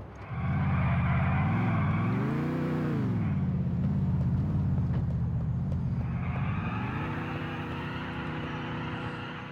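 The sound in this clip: Car engine in the video game GTA IV, on a car whose bumper is falling off: a loud, continuous droning hum that swells up and back down early on, settles, then climbs again toward the end, with no talk.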